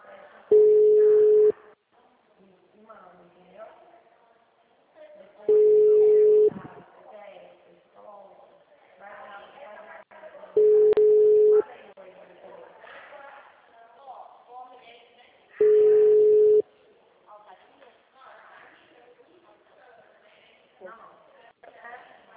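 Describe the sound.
Four steady ringback tones of an outgoing phone call waiting for someone to answer, each lasting about a second and evenly spaced, with low talking heard between the rings.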